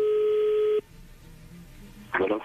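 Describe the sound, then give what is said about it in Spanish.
A telephone number is dialled, with a steady line tone that cuts off after under a second. A quiet gap follows, then a short burst of telephone sound. “Bueno, pues ahí se está marcando, Leti.”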